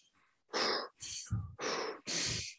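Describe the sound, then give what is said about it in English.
Deep breaths drawn in and pushed out: loud, airy rushes of air in close succession with short gaps between them, and no talk. “Tim, we're gonna do an exercise, you and I, right now. All right, let's do it. It's called What Does Darren McCarty Do When He's Having a Bad Day or Gets in a Moment Like This? What he does is he takes three deep breaths.”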